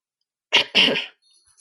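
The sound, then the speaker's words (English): Two short, harsh coughs from someone with a cold come in quick succession, the second slightly longer, alone against silence. “got a little bit of a cold, so like you might hear some coughing”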